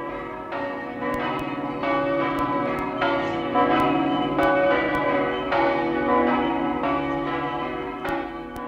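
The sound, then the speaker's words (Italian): Church bells ring out in a Friulian village, many overlapping strokes pealing steadily and evenly, with bright metallic tones hanging between the strikes. “ogni campana della nostra terra è la campana del nostro paese.”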